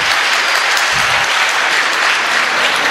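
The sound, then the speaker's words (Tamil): Steady applause from an audience welcoming a poet to the stage at a poetry gathering, a dense, even patter of clapping that holds at full strength throughout. “மன்றம் வரும்போதே கரவொலியோடு அழைக்கிறது உங்களை”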